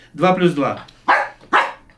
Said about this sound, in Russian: Ну, чтобы не очень большое число было, потому что гавкать будет до утра.